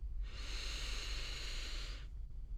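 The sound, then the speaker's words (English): A slow, steady inhale during a guided breathing exercise: a soft, even airy hiss lasting about two seconds over a low background hum. “Let's do that one more time. Breathing in”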